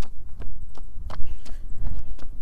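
Footsteps of a person on a brisk walk, a steady run of firm, evenly spaced steps with sharp heel strikes, moderately loud and alone.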